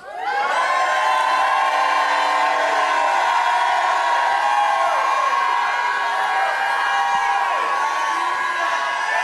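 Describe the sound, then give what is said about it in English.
A church audience shouts praise to the Lord in a loud, sustained roar of voices. Whoops and cheers rise out of it, and it swells quickly and holds steady throughout. “lift your right hand up and give the Lord a shout”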